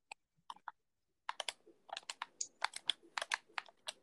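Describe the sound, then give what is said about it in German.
Computer keyboard typing in the background of a conversation: a few scattered keystrokes, a short pause, then a dense run of rapid, crisp clicks of varying loudness. No one speaks. “Und du tippst sogar im Hintergrund.”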